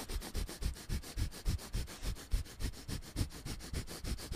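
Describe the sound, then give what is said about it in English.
Breath of fire yoga breathing: many rapid, forceful nasal breaths in an even, fast rhythm of short hissing pulses, fairly faint and with no talk. “You know, breath of fire.”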